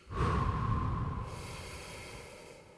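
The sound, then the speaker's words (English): A deep breath drawn in, one long, loud breathy inhale that starts abruptly and slowly tapers off over about two seconds, with no talking. “All right, let's take the breath first.”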